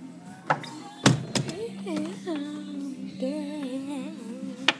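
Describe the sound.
A door closes as people head back inside on a chilly day, marked by a few sharp clunks and thuds while voices keep talking throughout.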